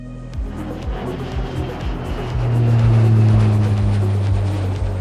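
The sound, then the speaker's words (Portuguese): A jingle with a small jet taking off: a roaring engine grows louder partway through over a steady, thumping rhythmic beat. “aperte os cintos, pois esse jatinho vai decolar. Solta a vinheta, Dantas!”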